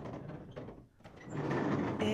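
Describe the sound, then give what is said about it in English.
A door is opened in a tower, with a muffled mechanical rattle and scrape that dips briefly and then resumes more strongly. “I know you like being carried, but I have to open that door.”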